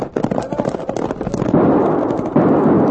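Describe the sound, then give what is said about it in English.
Winchester army rifles fire in a rapid, overlapping volley of sharp cracks, which give way to a dense, continuous clatter of shots that stays loud throughout. “Now get them Winchesters working! Them are army rifles!”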